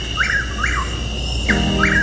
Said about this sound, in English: That's the call of Chuck Will's widow.